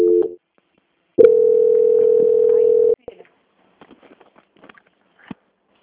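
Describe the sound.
A telephone call-transfer tone while a caller is on hold: a short steady beep, then a pause and a long, level, mid-pitched tone lasting nearly two seconds. Faint scattered clicks and noise follow.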